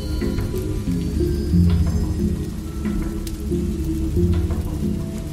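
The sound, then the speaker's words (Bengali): Rain pattering down steadily in darkness, a dense, even hiss of soft drops that holds a constant level throughout with no voices. “মাথা ঘোরালেই কালো দেওয়াল ঝিরঝির শব্দে বৃষ্টি ঝরছে”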